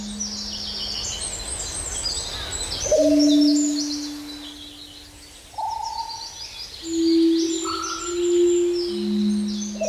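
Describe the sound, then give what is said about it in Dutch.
Birds calling and chirping in the Wadden Sea area: low, drawn-out whistled hoots overlap with higher, brighter chirps and calls, rising and falling in loudness, with no talking. “Ja, vogels. Zoveel is duidelijk. Vogels die roepen en chilpen. Op de achtergrond ook nog een specht, volgens mij. Het is het geluid van het Waddengebied.”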